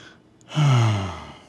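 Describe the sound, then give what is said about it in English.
A single deep breath is taken to calm down, loud and breathy, almost a gasp. It swells quickly after a quiet moment and then eases away slowly. “Hey, take a few deep breaths like this. There now, take another one.”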